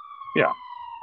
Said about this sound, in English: How bad is that siren? It's kind of loud